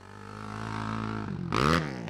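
ATV or dirt bike engine racing down a track at a state park: a steady, buzzing motor drone that builds gradually, then breaks into a louder, rougher revving burst near the end.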